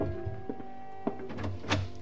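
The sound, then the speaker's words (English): Knocking at a hotel room door, a few dull, widely spaced thuds, the later ones a little stronger, over a low steady background hum. “The following morning, I was just leaving my hotel room when there was a knock at the door.”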